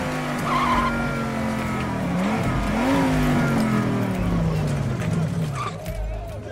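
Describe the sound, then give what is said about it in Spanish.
A car skids and races with a loud, steady engine drone and tire noise that holds throughout, its pitch wavering and briefly rising in the middle. “¿Necesitabas un vehículo? ¿Qué tan veloz es este auto?”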